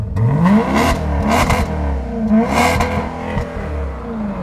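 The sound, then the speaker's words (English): A car engine revs loudly through twin tailpipes on an unfiltered exhaust, with a few sharp blips whose pitch climbs and drops back between bursts over a rumbling idle. “twin tailpipes. Let's see how they sound. Woo! No EPF filters here, bro. No filters here. Go on, rev it up, rev it up.”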